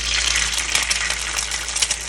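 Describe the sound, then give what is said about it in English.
An egg sizzles as it hits an overly hot frying pan, giving a steady bright hiss with fine crackles throughout and no voices. “We already heated ours to a desired temperature. Okay, that's a little too hot, but it'll be fine. Hopefully. You can leave that in. We're gonna crack our egg in.”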